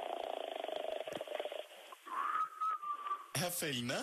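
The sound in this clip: A person whistles while asleep: a thin, steady tone sustained for about a second, after a rapid, purring breath sound, with a brief wavering voiced sound at the end.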